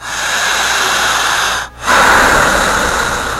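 Deep breathing demonstrated in a hypnosis session: two long, loud, airy breaths, one after the other, split by a short pause, with no talk over them.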